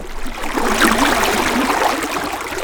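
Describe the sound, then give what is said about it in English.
Spring water bubbles up through holes in a cement floor at the bottom of an amphitheater basin. It makes a continuous, busy burbling with soft splashes and no voices. “spring water just bubbling up from the ground at the bottom here.”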